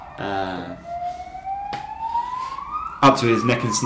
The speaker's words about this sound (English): It does, of course, make the ambulances and police sirens rather more noticeable